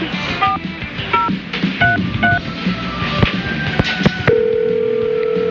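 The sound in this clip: Telephone keypad dialing, a call placed from a desk phone after dialing 9: four short two-tone beeps, a few faint clicks, then a steady unbroken tone held to the end, with no talk.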